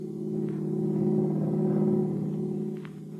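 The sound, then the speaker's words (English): A car drives home at night from an after-theater party, its engine a steady low hum that swells slightly through the middle and eases off near the end. “And then one night, you and Shelley are driving home from an after-theater party.”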